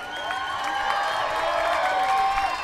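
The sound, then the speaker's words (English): Steady applause and cheering from a concert audience after a band's Noon Tunes set, forming a dense, continuous wash that holds level for the whole clip. “How about a big round of applause? I'm not one to judge, but that's not loud enough. Last time.”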